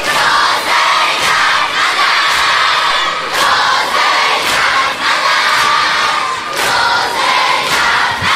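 A crowd at a religious gathering honoring Hazrat Zaynab chants "Ya Zaynab" in unison, loud rhythmic shouted calls repeated many times at an even pace.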